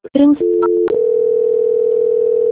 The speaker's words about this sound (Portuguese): Então, nesse instante, eu vou estar transferindo a ligação.